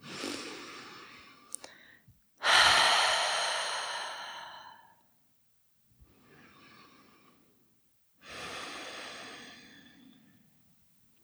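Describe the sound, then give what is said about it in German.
Deep breaths in and out through an open mouth during a calming exercise: four breathy swells separated by pauses. The second is loudest and partly voiced like a sigh, and the third is soft. “nimm hier ein paar tiefere Atemzüge ein und aus, gerne mal durch den geöffneten Mund”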